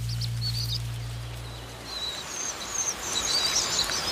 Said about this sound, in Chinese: 红背伯劳父母会共同照顾雏鸟，以确保它们能够经受住不久后迁徙越冬的考验。